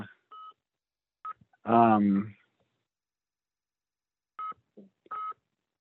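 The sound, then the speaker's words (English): A mobile phone going off with short electronic beep tones in two small clusters, and a brief voice sounding between them. “My phone's going off.”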